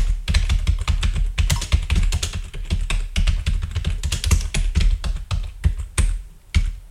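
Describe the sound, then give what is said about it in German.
Fast typing on a computer keyboard, a dense stream of clicking keystrokes with brief pauses between bursts, heard alone without voices. “Ich schreibe auch sicherheitshalber nochmal rein, übersetze den kompletten Songtext.”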